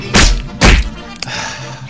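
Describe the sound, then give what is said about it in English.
A metal electrode gun hits the floor with two heavy, booming thuds in quick succession, followed by a brief faint click. “Drop the gun to the floor, Tanya! The metal will break contact!”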